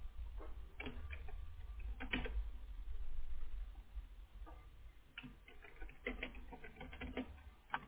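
Someone types a name on a keyboard in light, quiet clicking keystrokes. The keystrokes come in irregular bursts over a low, steady hum.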